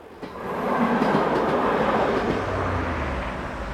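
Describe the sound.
A train runs steadily, giving a continuous broad rumble with rattling wheel noise that holds at an even loudness throughout, with no voices.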